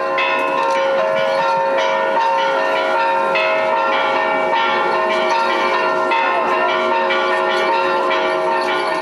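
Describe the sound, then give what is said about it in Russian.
Church bells peal continuously in Odessa as clergy and worshippers welcome an ark of holy relics, with several ringing tones overlapping in a loud, steady clangour throughout. “высокопреосвященнейшим Агафангелом, встречали ковчег с мощами под колокольный звон.”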